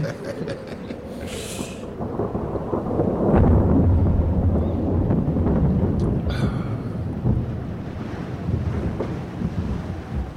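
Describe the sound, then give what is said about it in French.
Thunder rolls during a storm at sea, a deep rumble swelling around the middle and easing off, mixed with gusty wind and surging waves. “Allons bon, le tonnerre maintenant. La grosse caisse qui entre en ligne.”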